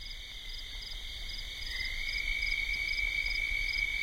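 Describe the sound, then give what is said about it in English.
Steady croaking of toads near mountains in Utah: a continuous, high-pitched trilling chorus, faint and unbroken throughout, over a low background hiss. “all that came through on my microphone was the steady croaking of toads.”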